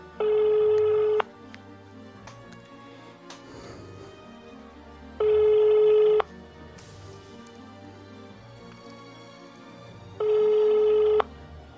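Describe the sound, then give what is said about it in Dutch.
Ringing tone of an outgoing telephone call: three long, even electronic rings spaced evenly apart over a steady, quieter background. “Eh, ik ga eens even Danny proberen te ah, bellen.”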